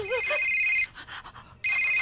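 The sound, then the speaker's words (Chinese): A telephone lying on the floor rings with a bright, shrill electronic trill in two loud bursts separated by a short pause. “边个电话响啊？系咪你啊？ 我个电话冇响。 地下个电话边个噶？”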